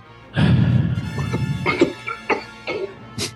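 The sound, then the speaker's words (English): Coughing from something caught in the throat: a loud, harsh cough bursts out, followed by a few shorter rasping coughs and throat-clearing sounds. “Something in my throat there.”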